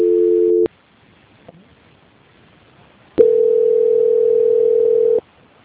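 Telephone line tone during a call transfer: a short steady tone, a gap of near silence, then a longer steady tone of about two seconds that cuts off cleanly.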